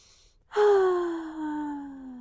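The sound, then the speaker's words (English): A deep breath drawn in: a long, loud, breathy sound with a faint voiced tone that slowly falls, lasting well over a second with no other sound. “Just take a deep breath.”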